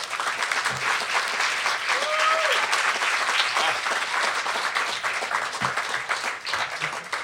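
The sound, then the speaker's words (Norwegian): An audience applauds a monthly guest at a talk event: dense, even clapping that stays steady and fairly loud for about seven seconds. “Gi en stor applaus til denne måneds gjest, stjernestøvjeger og forsker Jon Larsen.”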